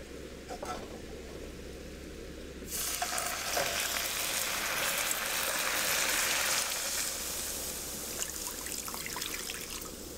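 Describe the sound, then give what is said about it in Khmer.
Water is added to caramelizing sugar in a pan and erupts into a loud, broad sizzling hiss partway through. The hiss holds steady for several seconds and then eases slightly near the end. “ដល់ពេលដែលស្ករចាប់ផ្ដើមឡើងឈ្ងុយការពារកុំឲ្យខ្លោចដូច្នេះគឺយើងត្រូវដាក់ទឹក”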